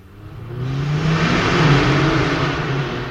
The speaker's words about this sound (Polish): Te samochody przeszkadzają im spać.